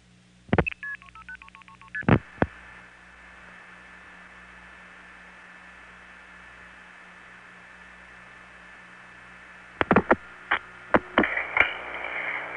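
Touch-tone telephone dialing of a local prefix: a quick run of short beeping tones with a few clicks, then a long stretch of steady line hum, followed by another cluster of tones and clicks.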